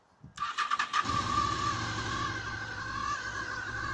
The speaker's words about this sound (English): This is what a bike sounds like if it starts.